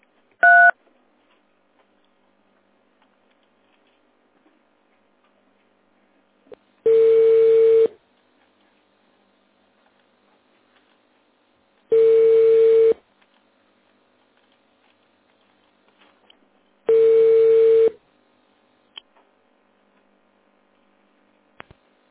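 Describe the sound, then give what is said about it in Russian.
A phone ringback tone sounds after an automated company menu as a call to the accounting department goes unanswered: a short keypad beep, then three long, steady, evenly spaced tones separated by silence. “вот я звонила в бухгалтерию вашу, там трубку, похоже, не сняли”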